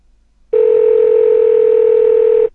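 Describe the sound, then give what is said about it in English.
A Google Voice phone ringing: a single loud, steady, mid-pitched electronic tone held for about two seconds, with an abrupt start and stop and near silence around it. “I love the Google Voice ringing.”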